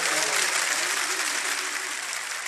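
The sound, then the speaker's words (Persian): A crowd applauds in a steady, dense wash of clapping that holds at an even loudness throughout, with a voice faintly audible underneath. “این کف زدن های شما”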